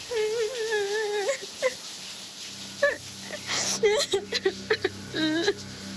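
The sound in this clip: Sobbing and whimpering cries, a wavering voice breaking into uneven bursts of weeping over a low steady musical drone.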